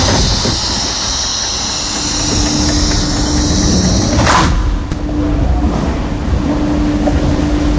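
A train sits at a station platform in Limoges around 1:30 at night, giving a loud, steady rumbling roar with a faint, constant tonal hum and a brief swell partway through, with no voices.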